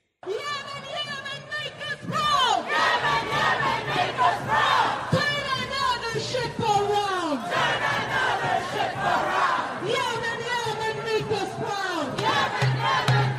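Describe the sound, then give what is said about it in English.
Protesters shout at street protests in major cities: a loud crowd of overlapping, raised voices and chants that stays dense throughout. “That is just some of the sound of these vicious protests that are taking place in many major cities.”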